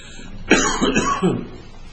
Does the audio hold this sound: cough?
yes